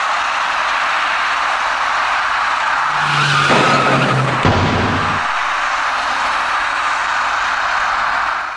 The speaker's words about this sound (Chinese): 此时一辆白色小客从桥下方驶来，您注意看